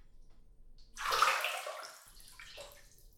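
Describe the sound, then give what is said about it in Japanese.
Hot water is poured over a person's calves, a soft splashing stream that swells after a quiet moment and then gradually tapers off, faint overall. “ここからはふくらはぎにもお湯をかけていきますね。”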